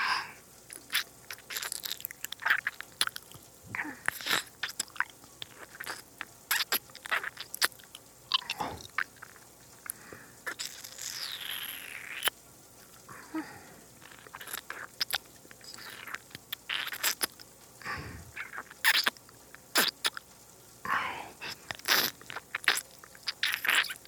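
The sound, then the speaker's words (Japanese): Chewing and biting on food while tasting it: many close, wet, crunchy and squishy mouth sounds in an irregular rhythm, moderately faint and continuing throughout without talk. “味見をさせて。おいしい。”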